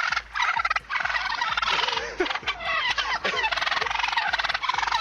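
Wild free-range turkeys gobble on a road, with many loud, rapid, warbling gobbles repeated throughout and only brief pauses between bursts.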